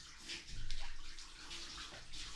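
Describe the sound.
Hot bath water sloshing and lapping as someone gets into the tub, a continuous, fairly soft swirl of water that swells briefly early on, with no voices.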